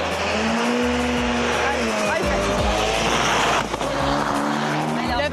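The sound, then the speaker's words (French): Race car wheels spin as the car launches from a standing start on standard road tyres with little grip. A loud, continuous engine roar runs throughout, mixed with tyre squeal and skidding. “Il patine. C'est pas évident hein, de partir avec un bolide. Alors, c'est pas évident. Non, c'est pas évident. Surtout que les pneus de série font que ça glisse. Il n'y a pas beaucoup de grip.”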